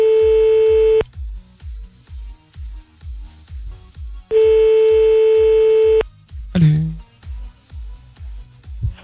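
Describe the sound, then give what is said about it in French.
Line tones from a telephone call being placed: two long, steady, mid-pitched tones separated by a pause, over a soft repeating low thump, with a brief burst of another sound after the second tone. “On le rappelle maintenant”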